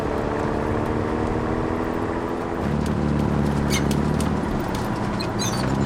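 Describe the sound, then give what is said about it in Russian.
A light armoured car drives past a fortress wall, its engine a loud, steady, rumbling drone whose note shifts partway through, with faint higher clicks above it. “Под стеной крепости едет легкий броневик.”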